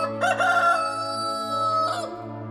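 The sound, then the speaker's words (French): A rooster crows, one long loud call followed by a shorter second burst, over a sustained low musical tone. “Soudain, Pierre entend un coq chanter.”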